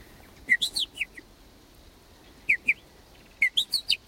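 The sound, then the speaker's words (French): Blackbird chicks, four or five in a nest, call for food with short, high, thin chirps. The chirps come in three quick bursts, a cluster, a pair, then another cluster, heard alone without talk. “Donc les merles, les 4 ou 5 petits qui sont dans le nid, quittent le nid avant d'être émancipés. Ils disent en fonction du cri et de la répétition de ce cri, du rythme du cri.”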